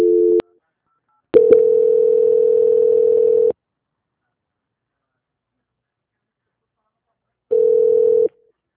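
Telephone tones while a call is being transferred: a short beep, then a steady tone of about two seconds with a few clicks at its start, a long silence, and a final shorter tone.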